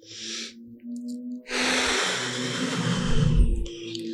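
A single deep breath, heard as a long, loud, airy rush that lasts about two seconds, with a low rumble beneath it and no talk.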